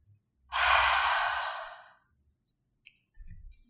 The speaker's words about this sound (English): We'll inhale through the nose to fill up the lungs, and exhale through the mouth, making a sound like fogging a mirror. So it'll sound something like this.